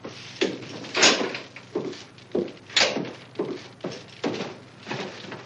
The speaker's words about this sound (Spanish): Ned cierra la puerta y el cerrojo